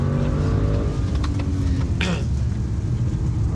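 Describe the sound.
Car engine accelerating during a drive, a low droning engine note with faint rising harmonics under steady road rumble, loud and continuous, with a brief clatter midway.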